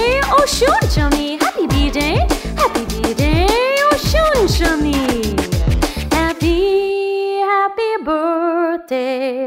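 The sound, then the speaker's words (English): A dog yips and whines in many quick cries with sharply sliding pitch, some rising and some falling, loud and close together. Steadier held tones follow in the last few seconds. “My dog says, whoop, whoop to you.”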